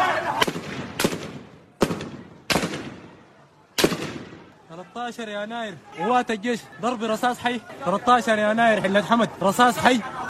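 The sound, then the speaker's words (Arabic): Live gunfire during street protests in Khartoum: several loud, sharp cracks with short decaying tails across the first four seconds, then raised voices shouting over the rest. “رصاص حي”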